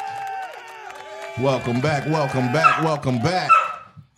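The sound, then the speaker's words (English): A dog barks in a rapid run of sharp, bouncing barks and yips, loud and close together for a couple of seconds before cutting off. A steady tone is heard beforehand. “Y'all gotta excuse my dog. She is tripping today.”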